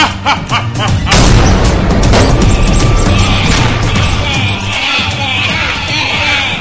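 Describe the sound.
Weapons fire on command at a planet with a sudden loud boom that bursts in after a brief lead-in and swells into a sustained roaring, crashing rumble.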